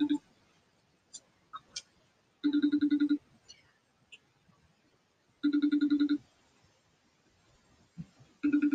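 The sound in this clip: Ringback tone of an outgoing phone call: three evenly spaced bursts of a steady buzzing ring, the last one cut off, with faint clicks in the quiet gaps between them.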